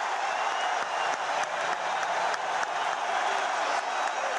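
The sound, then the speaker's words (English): American football fans cheer the US 2-1 World Cup win over Ghana in Brazil, a dense, unbroken wash of crowd noise and clapping held at a steady level throughout. “where tonight this was the sound of raw American jubilation.”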